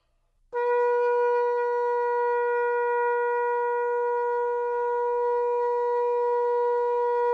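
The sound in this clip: A shofar, a ram's horn, sounds a long tekiah gedolah: one sustained, steady blast with a rich, buzzy harmonic tone. It starts abruptly just after the opening and holds at even loudness to the end.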